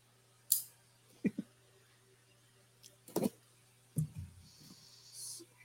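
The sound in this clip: Tape being cut and pulled from the packaging of a Bruiser Brody wrestling action figure during an unboxing: several short, sharp snaps and crackling tears separated by quiet gaps, ending with a softer, longer rustle.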